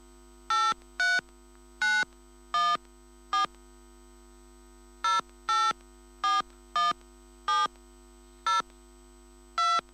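Telephone keypad tones as a PIN is entered: many short, bright beeps in two irregular runs separated by a brief pause, each beep crisp and even in loudness over a faint steady hum.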